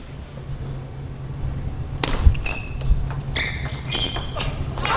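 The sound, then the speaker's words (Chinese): A table tennis ball struck on a backhand serve during a match: a few sharp, light ticks and soft thuds stand out over a low, steady background hum. “有一个背面发球”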